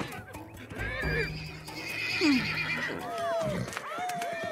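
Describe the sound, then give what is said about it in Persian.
Horses neighing and whinnying in a few drawn-out calls that bend up and down in pitch, overlapping one another against a busy, rustling background. “شما الان اسبای منی، بیاید اینجا بینم.”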